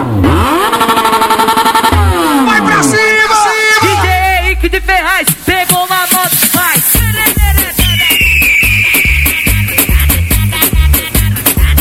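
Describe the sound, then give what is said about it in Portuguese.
Motorcycle engine revving at a street carnival bloco party with a live DJ set, the revs rising and falling under loud, pounding music with a steady beat. “acelera, acelera essa moto, acelera essa moto, acelera essa moto. Só vale se acelerar a moto, vai. Acelera, vai.”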